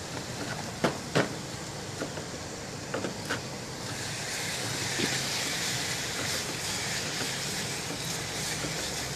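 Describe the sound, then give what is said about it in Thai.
Lime-marinated minced pork stir-fries in a pan with a steady, loud sizzling hiss that swells and thickens midway, after a few sharp clacks at the start. “ขั้นต่อไปผมก็จะเอาเนื้อสับหมูสับที่หมักมะนาวแล้วนะแต่ว่าไม่ได้ปั้นออกเท่าไหร่เอาลงรวนคลุกในกระทะ”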